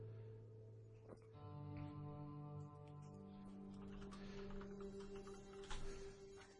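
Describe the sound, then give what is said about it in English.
Fast typing on a computer keyboard: many quick, light key clicks run on steadily, fairly faint. “I didn't put the accents in because I am typing it fast.”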